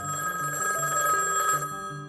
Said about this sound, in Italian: Il telefono non smette mai di squillare.